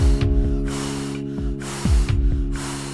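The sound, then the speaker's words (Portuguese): Someone blows on hot chocolate to cool it, making a few breathy, hissing puffs in an irregular rhythm over a steady music bed with low thumps. “Está tão quente a queimar, que vou ter de lhe soprar.”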